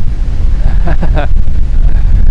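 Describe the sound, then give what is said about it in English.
Strong wind blowing outdoors among trees, a loud, steady roaring rumble buffeting the microphone throughout, with a brief vocal sound near the middle. “Whoa. Like I'm in a wind tunnel, man.”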